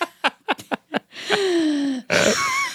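Heavy breathing from a pregnant woman catching her breath after reading a long paragraph aloud: a quick run of short, sharp gasps, then a long voiced exhale that slides downward in pitch, and another loud breathy exhale.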